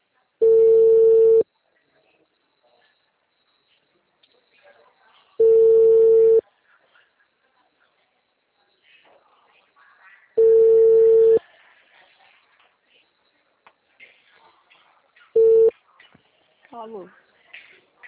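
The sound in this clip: A telephone ringback tone sounds while calling someone: four steady, mid-pitched tones spaced about five seconds apart with silence between. The fourth is cut short, and a faint voice follows at the end.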